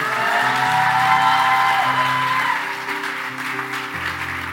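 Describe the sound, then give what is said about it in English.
Applause from a Sunday church audience welcoming the City Hills family onto the stage: dense, steady clapping over sustained musical tones, easing slightly toward the end. “So I got some friends on the stage. Would you put your hands together and welcome City Hills family?”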